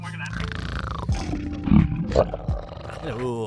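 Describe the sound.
A human voice imitates a dragon's roar in rough, growling bursts that rise and break off over a few seconds.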